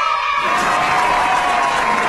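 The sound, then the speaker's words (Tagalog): Applause for a fire brigade crew at a fire safety demonstration, a brief spoken voice at the start giving way to loud, dense clapping from a crowd that holds steady to the end. “ato na to ang aton nga BFP estansya, palakpakan.”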